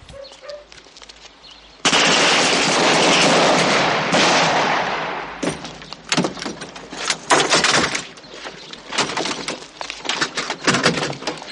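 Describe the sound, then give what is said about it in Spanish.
Rifles fired into the air by farm workers in a scene from the 1976 period drama film Novecento: a loud, sustained burst of noise, then many sharp, irregular cracks that come in quick clusters. “Olmo dispara al aire y entrega el arma. Sus compañeros le imitan.”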